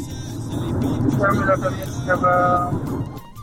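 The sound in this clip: A car driving, heard from inside: a continuous low engine and road rumble fills the background while people talk over it.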